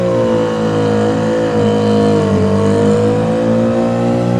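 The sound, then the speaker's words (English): A car burning rubber and accelerating hard on Hollywood Boulevard, a loud sustained engine drone with strong steady harmonics that dips briefly midway and then holds. “now he's like burning rubber.”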